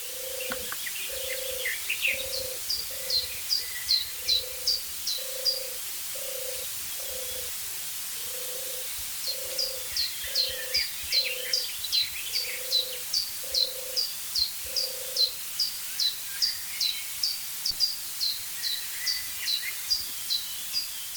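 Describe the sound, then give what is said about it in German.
Soft purring coos of a European turtle dove repeat in a long, steady run of low rounded pulses, with other birds chirping thinly above them. “Ich stelle fest, dass ich einfach zu wenig weiß über die Turteltaube, weil die so heimlich ist”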